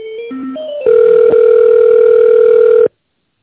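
Telephone line tone heard while dialing an extension: a few brief shifting tones, then a loud steady electronic hum that holds for about two seconds and cuts off abruptly.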